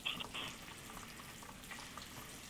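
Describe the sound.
Giant mushrooms deep-fry in oil inside a Chefman deep fryer, giving a steady bubbling sizzle with a few brighter crackling bursts near the start and no voices.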